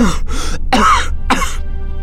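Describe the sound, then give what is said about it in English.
A series of four short, sharp coughs from one person in quick succession, loud and harsh, with no talking around them. “The words broke off with a series of short, sharp coughs, and Austin”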